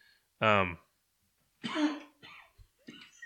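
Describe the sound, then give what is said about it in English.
A single loud, abrupt cough lands right into a microphone, followed after a short silence by someone talking. “sorry, I don't have a cough button. But I have to take that out of there. Yeah, later. I almost coughed right in the mic.”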